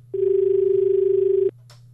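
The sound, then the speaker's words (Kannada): A single steady telephone tone sounds as an incoming call connects on a phone-in line. It holds one even pitch for about a second and a half, then cuts off, followed by a brief faint click. “ಈಗ ಇನ್ನೊಂದು ಕರೆ ಇದೆ ನೋಡೋಣ.”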